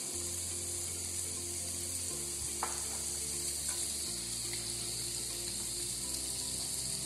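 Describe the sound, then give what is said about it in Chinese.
Steady sizzling of food pan-frying until both sides brown, a continuous crackling hiss with a low hum beneath it and one faint click partway through; no voices. “等佢两边都煎到转咗色咧。就可以滲少少鹽落去噶啦”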